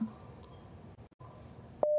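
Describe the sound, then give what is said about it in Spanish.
A short, steady electronic telephone tone sounds after a dropped call. It comes near the end, following low background noise and brief crackles. “creo que se cortó la llamada. Tenemos mala comunicación con la señora Irma”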